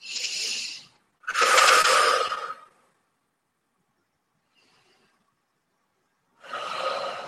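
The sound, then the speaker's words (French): Breathing in and out at one's own pace during an exercise session, three soft, hissing breaths with a long silent pause before the last, airy and fairly quiet. “Vous pouvez aussi rester debout si c'est trop difficile, juste comme ça et inspirez et expirez dans votre rythme.”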